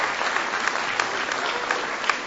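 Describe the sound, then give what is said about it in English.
An audience applauds: steady, dense clapping that forms a continuous bright patter, with a few sharper claps standing out, fairly loud throughout. “Now, I think we should give a round of applause.”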